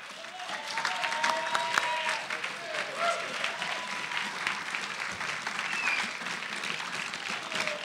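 A church audience at Pacific Baptist gives a warm round of applause to welcome a guest pastor, sustained clapping from a crowd that stays fairly even throughout.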